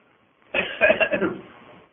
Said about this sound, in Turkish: böyle öksürmemize sebebiyet veren bir faranjit var